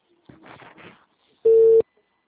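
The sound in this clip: Telephone busy signal heard as one short, steady mid-pitched beep on the line, following a brief murmur of a voice.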